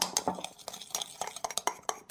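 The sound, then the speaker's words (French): Quick metallic clinks and scrapes from a hand whisk stirring eggs and sugar in a bowl: many fast, irregular strokes, moderately loud, with no voices. “Dans un saladier, cassez les 5 œufs. Y ajoutez le reste du sucre blanc et remuez avec un fouet à main jusqu'à ce que le mélange soit bien homogène.”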